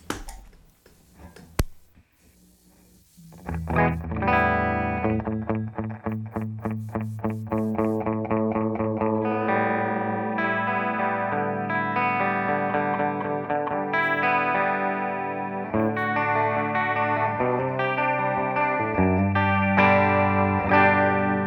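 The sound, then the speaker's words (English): An electric guitar, a 1978 Ibanez Iceman, plays in mono through a 1976 Roland DC-50 digital chorus at low intensity. After a faint click, a quick run of repeated picked notes gives way to ringing, sustained chords. “A very pleasant chorus sound for sure.”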